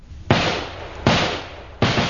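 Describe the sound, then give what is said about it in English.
Gunfire from a gang of twelve men shooting in a street: three sharp, loud bangs at even intervals, each trailing off in a long, noisy decay. “Now, the gang is in a great hurry. All 12 men begin shooting.”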